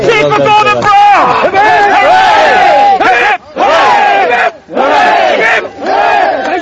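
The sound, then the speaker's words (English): A crowd chants in thanks to the Gurkhas in a loud, rhythmic, shouted chant that repeats in forceful bursts separated by brief pauses. “And for the Gurkhas, a chant the embattled Prime Minister hasn't heard for a while.”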